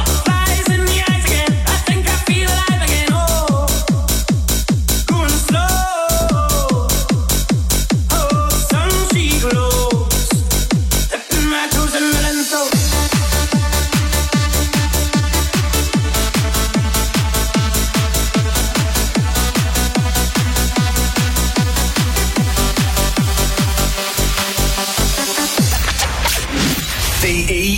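A viral dance remix by a Scottish DJ plays, driven by a steady, pounding beat under layered melodic lines. It stays loud and dense throughout, with the texture thinning briefly near the end.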